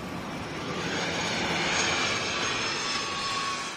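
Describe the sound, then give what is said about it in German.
A private jet roars as it flies overhead, a broad, steady rushing drone that stays at an even, moderate loudness throughout with no voices. “Schon wieder so ein Privatjet, der das Wochenende nach Mallorca fliegt.”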